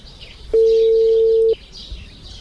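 A mobile phone call ringing out: one steady mid-pitched ring tone lasting about a second, rising from and falling back to a low background hiss.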